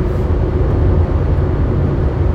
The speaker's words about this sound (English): because now as I'm driving home, I'm able to, you know, record this episode.